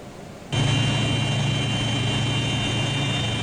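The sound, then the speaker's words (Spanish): Engines of a Hercules military transport aircraft of the Uruguayan Air Force running on a runway while it waits for takeoff clearance. After a brief quiet start the sound cuts in abruptly as a steady, loud roar with a low hum and a high whine. “Este avión Hércules de la Fuerza Aérea Uruguaya estaba esperando en la pista la orden de despegue.”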